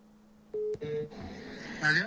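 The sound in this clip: A telephone keypad sounds two short, clear dialing tones in quick succession as someone calls a relative, followed by a noisier stretch of line sound.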